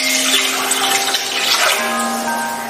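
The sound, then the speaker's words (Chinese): Running water poured to soak sour cabbage (sauerkraut) in clean water, a steady, fairly loud hissing flow with faint constant tones beneath it. “我们现在准备拌个酸白菜，用清水浸泡30分钟，”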